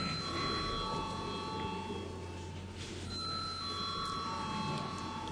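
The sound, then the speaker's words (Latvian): Chairman's bell rung in a parliament session before a vote: sustained metallic ringing tones run faintly through steady noise across the whole clip. “Paldies, lūdzu zvanu.”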